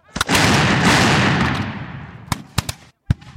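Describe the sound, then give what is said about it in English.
Artillery fire from Captain Bragg's flying artillery in a battle between American and Mexican forces: a heavy blast opens into a long rolling roar that slowly fades, followed by a few sharp, separate reports. “American Captain Bragg's flying artillery fires like crazy, but Zach wants more. Double shot your guns and give 'em hell, the general orders.”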